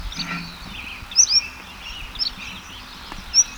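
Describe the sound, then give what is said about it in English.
Songbird singing, a few short, high, sharp chirps scattered over a steady faint background hiss, with a brief double chirp near the middle. “Bird number one is singing exceptionally well now.”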